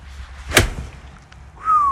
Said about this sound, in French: Alors moi, je me suis essayé au swing, et c'est là qu'on voit qu'il y a tout un tas de paramètres à gérer. Hein, car le golf, c'est très technique, c'est pas juste taper dans la balle.